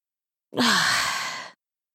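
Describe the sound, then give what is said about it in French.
A single yawn, about one second long, breathy and partly voiced, with a tone that drops in pitch as it trails off, heard alone. “Elle sent une envie de dormir l'envahir lentement et ne réfrène pas le bâillement qui monte.”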